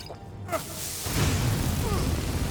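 Flames spell blasting a Thalmor soldier in a video game, fired against enemies with bound weapons. A quieter opening gives way after about a second to a loud, sustained roaring whoosh that runs on to the end.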